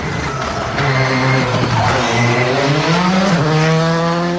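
A rally car roars past on the final special stage between Dzięćmierowice and Świdnica, its loud engine note wavering up and down in pitch as it drives through. The engine sound is continuous, strong and unbroken throughout.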